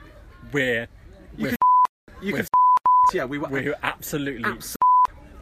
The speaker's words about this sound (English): There's one beep.